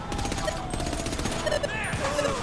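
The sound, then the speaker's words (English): Video-game gunfire in which the player is shooting at police: dense rapid shots crackle in continuous bursts, fairly quiet, with a voice talking over part of it. “Oh yeah, because I'm shooting the police.”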